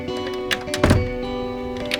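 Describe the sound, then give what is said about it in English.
A door is shut and locked with one dull, heavy thunk that stands out above a steady low hum, with a few faint small knocks around it. “locks the door on both of them.”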